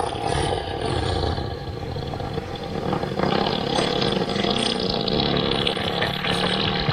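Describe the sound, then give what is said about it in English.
An elephant breaking wind produces a long, loud, rumbling blast that holds steady and unbroken for about seven seconds. No voices are heard. “Also, yesterday we played an elephant fart. Let's go to the break with the elephant fart, in case you missed that.”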